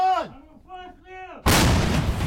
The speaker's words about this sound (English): Under threat from return fire, soldiers rush to the Soviet-era gun and prepare to fire on Russian forces.